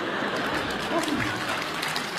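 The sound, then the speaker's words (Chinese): A studio audience at a comedy show gives a short burst of dense applause, with a voice briefly heard over the clapping. “全被征服了，来点掌声好吗？哎呦，哎呀，楼上都鼓掌。”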